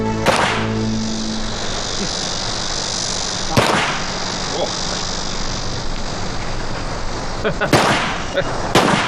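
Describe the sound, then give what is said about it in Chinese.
A few sharp gunshot cracks come from rifle shooting practice, fired at irregular intervals. Each short bang cuts through a loud, constant hiss. “这子弹都放出去了，这就是胜利啊！”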